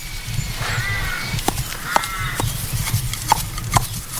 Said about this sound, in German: Ich glaube, es ist ein Tier. Ja, ich glaube sogar ein Ross.